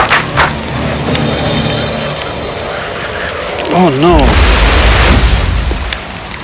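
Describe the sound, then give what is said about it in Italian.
Firecrackers set off from a flying trunk in a children's fairy tale burst as a deep, sustained rumbling boom, preceded by a quick wavering whistle-like tone. “Sven riempì il suo baule di petardi e volò in alto per farli scoppiare.”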